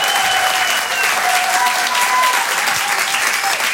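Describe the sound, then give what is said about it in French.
Dense, loud applause from a live comedy show audience honouring a comedian, a continuous wash of clapping that holds steady for the whole stretch. “Faites du bruit, s'il vous plaît, pour Brahms.”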